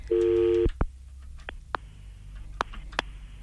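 A telephone call is being redialled. A steady, buzzy phone tone sounds for under a second and stops, followed by a few sharp clicks spaced irregularly over faint background hum.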